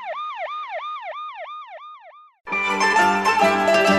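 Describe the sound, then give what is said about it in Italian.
Distant police siren wailing in repeated, evenly spaced rising-and-falling sweeps, loud and alone, then stopping abruptly as music begins. “In lontananza, una sirena della polizia si faceva sempre più vicina.”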